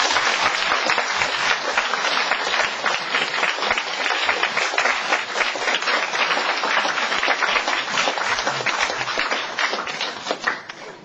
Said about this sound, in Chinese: 好，我们现在拍手欢迎科马泰牧师。